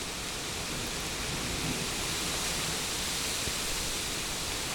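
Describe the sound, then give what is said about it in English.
Rain of an approaching storm: a dense, steady hiss of heavy rainfall that stays loud and even throughout, with no voices. “The rain is coming. A storm is here.”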